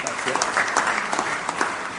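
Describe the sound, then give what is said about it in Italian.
Applause welcomes a speaker to the podium at an event: dense, steady clapping from a crowd, sustained at an even level for about two seconds. “Accogliamolo un grande applauso”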